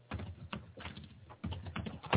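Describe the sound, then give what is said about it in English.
Fairly quiet computer-keyboard typing while jotting down a note: irregular bursts of key clicks with short pauses between them. “I'm jotting it down right now, so don't forget.”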